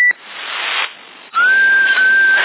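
A whistle sounds over a CB radio in Sassari. A short note and a burst of hissy, band-limited static come first, then a clear tone that rises slightly and holds steady until the end.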